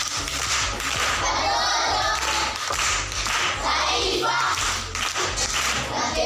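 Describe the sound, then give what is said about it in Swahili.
Applause for a pupil at a primary school class event, loud dense clapping from a group that runs steadily through the whole stretch over a low rhythmic pulse. “Makofi kwa mjomba.”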